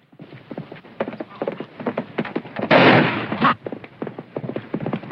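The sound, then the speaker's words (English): Gunshots fire in a radio drama shootout, one loud, noisy burst of gunfire standing out amid steady rhythmic clopping. “There's been a shooting.”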